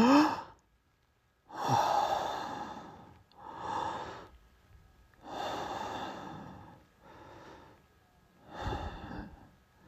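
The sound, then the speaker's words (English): Slow, deep breaths drawn in and let out at the start of a guided meditation. Several broad, airy bursts of inhaling and exhaling, each lasting about a second or more, are separated by short pauses and heard alone, without talk. “Begin by taking three deep breaths.”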